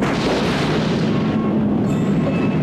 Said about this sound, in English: The thrusters fire up, ejecting a thick cloud of gas which fills up the launch area. Then the pod slowly lifts off.